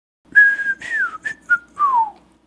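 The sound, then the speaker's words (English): Whistled language, a spoken message carried by a human whistle: five clear, high whistled notes in a speech-like rhythm, several gliding downward in pitch, with the last a long falling tone. “Now I'll go back through it, and this time I'll talk it as well as whistle it, and you will see what's going on in the whistle.”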